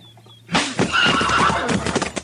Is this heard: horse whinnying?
yes